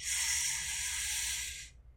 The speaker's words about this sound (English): Let's begin with a cleansing breath. Inhale.